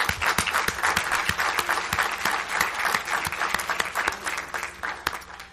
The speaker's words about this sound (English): And let's give a round of applause for